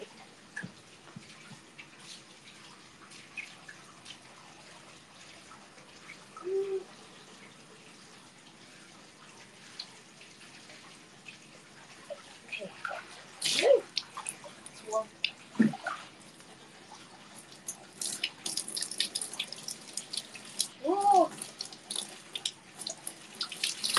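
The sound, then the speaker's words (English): Running water as cold spring water is collected at an onsen, a steady splashing trickle with a few louder gushes and splashes growing busier in the second half. “I'm gonna collect spring water. Use it on the cell.”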